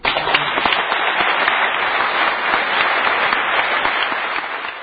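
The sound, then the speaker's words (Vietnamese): Audience in a hall at an award ceremony in Bergen, breaking into warm applause that becomes a standing ovation: sustained, dense clapping that starts abruptly, stays loud, and eases slightly near the end. “Tiếng vỗ tay nồng nhiệt vang lên không dứt, rồi bỗng nhiên cả hội trường cùng đứng lên vỗ tay khi ông Võ Văn Ái bước lên sân khấu.”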